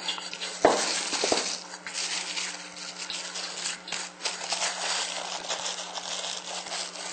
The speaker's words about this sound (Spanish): Listo, ya está nuestra primera empanada comenzando a freír.